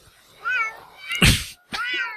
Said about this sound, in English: Calling from your house, like 30 some cats.